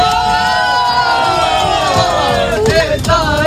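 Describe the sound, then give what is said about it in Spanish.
An excited crowd of young people travelling to Madrid to meet the Pope shouts and cheers, their many voices loud and continuous over the whole clip. “Este es el sonido de algunos de los miles de jóvenes que están deseando llegar a Madrid para este encuentro con el Santo Padre.”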